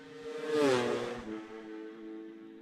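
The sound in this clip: A sidecar racing outfit passes with its engine revving hard, a loud harmonic whine that swells to a peak, drops in pitch as it goes by, then fades into a lower, steadier drone.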